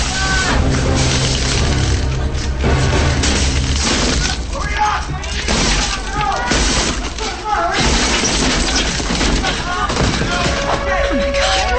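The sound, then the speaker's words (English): A suitcase smashes a car windshield, and glass shatters within a dense, loud jumble of crashing noise and voices that continues throughout. “picks up a suitcase and smashes the windshield.”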